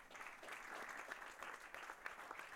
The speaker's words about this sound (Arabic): صفق الجميع بحرارة